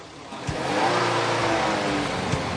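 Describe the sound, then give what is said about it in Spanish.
A car engine roars steadily and loudly as the vehicle drives away, with two short thuds standing out above the sustained engine noise. “Se vuelve hacia el rugido del motor y al ver el vehículo alejarse, golpea la furgoneta con el puño.”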